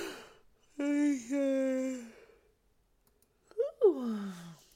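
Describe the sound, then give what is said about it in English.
A person yawns aloud: a long, steady, voiced tone, then after a pause a second drawn-out sound that rises briefly and slides down in pitch. “Who yawned? Raise your hand.”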